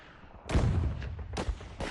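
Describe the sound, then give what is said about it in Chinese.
Gunfire from a battle against Japanese troops: a few sharp, faint reports crack out at uneven intervals, with rumbling decay between them. “王喜奎是政委赵刚负责的神枪队队长，在弹药极度缺乏的时刻，他们几乎做到了一枪一个日本鬼子。 哎，又一个，好枪法”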